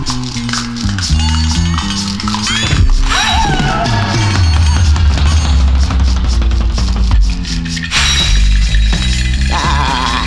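Mirror glass cracking and shattering, a brittle burst of breaking glass that is largely buried under loud, dense dramatic music running through the whole passage.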